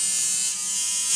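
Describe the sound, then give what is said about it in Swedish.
Tattoo machine buzzing: a continuous high-pitched electric whine, steady and unbroken, with a faint fluttering hum under the constant drone. “Det är ljudet av en tatueringsmaskin, för det ska handla om just tatueringar.”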